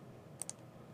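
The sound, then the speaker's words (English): Two quick, light computer mouse clicks land in close succession as the publish button is pressed. They are faint and crisp over a steady low hiss. “So right click this and let's do what we've been waiting for, and we will click the publish button.”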